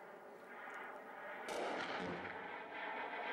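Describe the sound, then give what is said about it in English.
Rockets firing nonstop in a war zone make a dense, continuous rumbling roar that swells with a sharper burst partway through, fairly faint overall and with no voices. “And there were rockets being fired around non stop. And this is we went out from one hospital to another, walked from one hospital to another, and this is what it was like there.”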